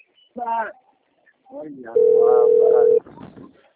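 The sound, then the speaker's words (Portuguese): A mobile phone rings with one sustained, steady electronic tone lasting about a second, with people talking just before it and partly under it. “Olha lá, mano. Você não viu o celular tocando?”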